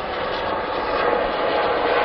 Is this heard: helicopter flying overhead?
yes

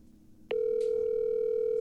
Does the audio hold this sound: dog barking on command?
no

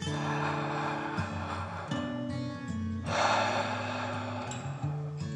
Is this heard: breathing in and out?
yes

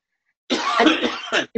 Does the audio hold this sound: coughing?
yes

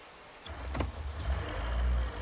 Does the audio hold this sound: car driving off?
yes

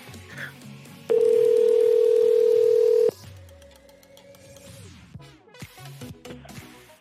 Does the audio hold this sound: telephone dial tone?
yes

